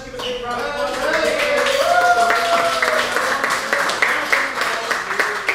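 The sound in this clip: Seniors at a lunch applaud, scattered clapping that builds and carries on after a voice is heard at the start.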